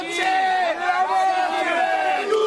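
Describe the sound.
AC Milan fans chant a song for Kaká, a loud crowd of voices singing in unison with a sustained melody and rising and falling pitch throughout.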